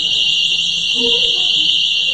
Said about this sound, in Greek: Τι είναι αυτό, παιχνίδι. Ωραία, έκανε συναγερμό.